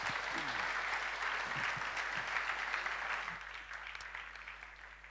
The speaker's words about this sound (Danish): Anita Olsen, skal vi give hende en hånd?